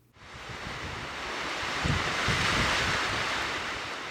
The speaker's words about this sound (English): We all know the sound of wind, but how about a few facts?